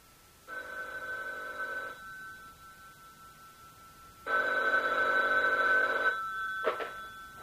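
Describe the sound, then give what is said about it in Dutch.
A telephone ringing on an international call to Zurich, Switzerland: two long, steady buzzing ring tones separated by a pause, followed by a brief click. “zou jij voor mij willen bellen, Zurich, Zwitserland, nummer 5”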